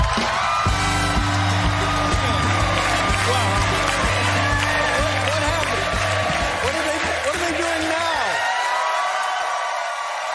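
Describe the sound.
A studio audience at a talk show in the Ed Sullivan Theater cheers and applauds a returning guest in a dense, steady roar that holds at an even loudness and eases slightly at the end.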